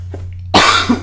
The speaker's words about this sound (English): excuse me. I don't know what this cough is.